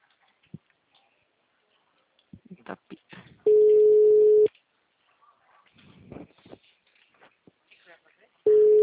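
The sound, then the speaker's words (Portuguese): An unanswered telephone call gives two long, steady, low-pitched tones about five seconds apart. A voice talks quietly between them, with a few small clicks. “Tô ligando pra essa mulher aqui. The number is not answering.”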